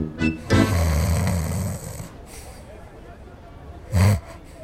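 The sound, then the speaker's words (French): Snoring: a few loud, rasping snorts, one stretched into a long drawn-out breath, followed by a quieter pause and another short snort near the end. “il ronfle.”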